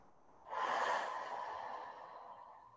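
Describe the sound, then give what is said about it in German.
A single deep breath begins abruptly, is loudest at the start, then trails off slowly into quiet, airy breathing. “Nimm 3 tiefe Atemzüge durch die Nase ein, durch den Mund wieder aus.”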